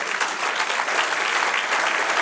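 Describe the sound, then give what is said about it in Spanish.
A church audience applauds for the Lord: quick, dense clapping at a steady level throughout, with no voices standing out. “Dale otro aplauso al Señor.”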